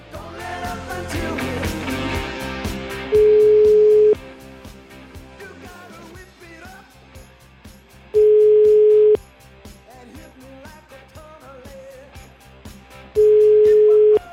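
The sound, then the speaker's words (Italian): Telephone ringback tones from a call placed to a Naples number: three steady one-second tones at even intervals, each standing out clearly over continuous background music. “Chiama Napoli. Tutto in diretta, eh? Chiama Napoli 081.”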